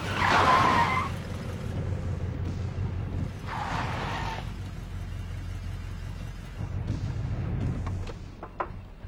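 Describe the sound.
Tires screech as a car skids to a stop, in two loud, harsh bursts separated by a few seconds, over a steady low engine rumble.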